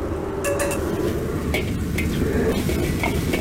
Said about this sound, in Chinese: 糖色炒好之后，下入处理好的鸡肉，转中小火爆香。鸡肉爆炒2分钟之后，加入香菇和料头炒香。